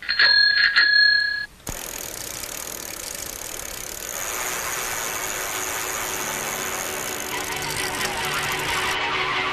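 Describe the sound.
A bicycle bell rings with a few quick, bright metallic dings, then gives way to a steady rushing, engine-like hum that continues to the end.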